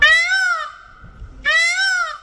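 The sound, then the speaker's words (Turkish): Peacocks call in the streets of Punta Marina, Italy, giving two loud, high, nasal wailing cries, each bending in pitch, linked by a fainter held note. “Burası İtalya'nın Punta Marina kasabası. Ama son günlerde sokakların gerçek sahipleri insanlar değil, tavus kuşları.”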